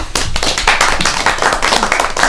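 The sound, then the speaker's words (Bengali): Sustained clapping from a group of students in a singing lesson: a dense, steady patter of many hands with no voices over it. “Now all of you clap for”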